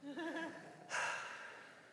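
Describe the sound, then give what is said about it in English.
Faint deep breath drawn during a church sermon: a brief snatch of voice, then one breathy rush that swells suddenly and slowly tapers off over about a second. “I want all of us to take a deep breath.”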